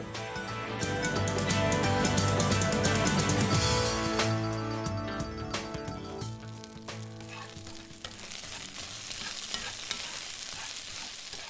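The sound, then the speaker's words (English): Onions sauteing in olive oil in a skillet, with dark red pinto beans and a little salt, give a loud, steady sizzle and crackle throughout, easing slightly after the first few seconds. “The aroma of onions sauteing in olive oil and blended with dark red pinto beans lightly salted in a skillet, a tasty protein rich dish.”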